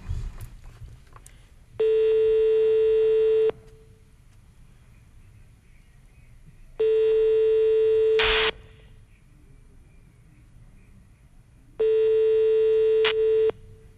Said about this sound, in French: Wow, c'est long hein, avant de tomber sur le répondeur.